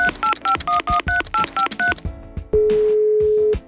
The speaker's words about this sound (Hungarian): úgyhogy már is tárcsázom.